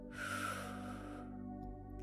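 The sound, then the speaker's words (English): A deep breath drawn in during a guided breathing exercise: a soft, airy rush that builds quickly and tapers away over a second or so, over a steady low hum. “Take a deep breath in.”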